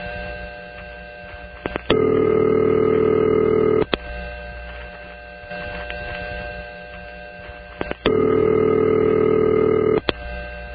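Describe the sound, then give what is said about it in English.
A number one crossbar telephone exchange rings with two long, deep ring tones. Each ends in a sharp relay click, over a steady bed of fainter background tones. “I'm going to play the sound of a number one crossbar.”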